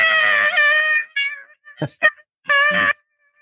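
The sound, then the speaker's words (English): A voice imitates a chair being pushed along the ground with a long, high, squealing screech, followed by shorter broken squeaks and one more strained screeching burst. “I don't know why people can't lift a chair and move it instead of just pushing it on the ground, making this noise.”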